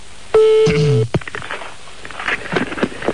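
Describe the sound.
A telephone number being dialed: a long, steady electronic tone, then a short falling tone, followed by a few faint clicks and rustles.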